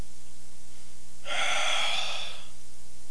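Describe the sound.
A person draws one sharp breath in, a breathy, airy gasp of about a second that stands alone against faint low hum.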